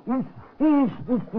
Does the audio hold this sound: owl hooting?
yes